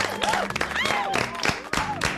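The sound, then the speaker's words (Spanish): Studio audience applause welcoming a guest on a television show, many hands clapping in uneven bursts while a man speaks loudly over it. “Fuerte el aplauso para nuestro amigo y compañero, el señor Diego Tomasi. Gracias. ¡Qué cabeza, eh! Más aplausos, más aplausos, que no falte, no falte más aplausos.”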